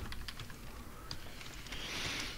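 Faint keystrokes on a computer keyboard as a command is typed: a few soft, irregular clicks over a low steady hiss, with no voices.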